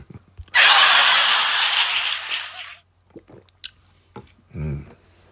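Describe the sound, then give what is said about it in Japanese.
Home-brewed coffee is sipped with a loud, hissy slurp lasting about two seconds, followed by a few faint clicks and a soft low sound. “ちょっとコーヒーいただきます。今日は家のコーヒーを飲んでますんで。”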